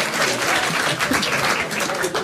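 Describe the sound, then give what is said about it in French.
Applause from an audience: a dense, steady wash of many hands clapping that carries on at an even level through the whole short clip. “C'est des applaudissements.”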